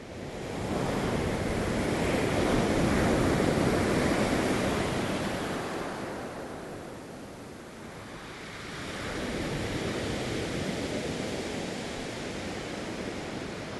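Waves wash onto a beach in a continuous, broad rushing surf that swells, eases off and builds again, with wind mixed in and no voices.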